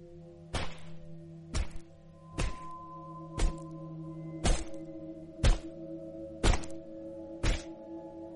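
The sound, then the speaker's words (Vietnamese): Bone chopping inside an apartment: eight heavy, evenly spaced thunks with sharp attacks, roughly one each second, over a low steady hum. “Bất quá, từ trong căn hộ số 1054 lại có âm thanh chặt xương phát ra.”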